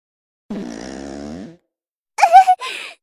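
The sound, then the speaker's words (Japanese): Farting from someone who can no longer hold it in: one sustained, buzzing, low fart, then after a pause two shorter, louder, rougher bursts in quick succession. “もうおならを我慢することもできなくて、また”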